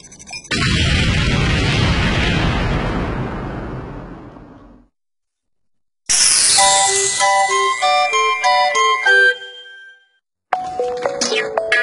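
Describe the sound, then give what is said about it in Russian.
A comic acoustic bomb launches with a roaring, explosion-like burst that fades out over about four seconds. After a short silence comes a run of bright, bell-like chime notes, then a few more ringing tones. “А, запускаю акустическую бомбу.”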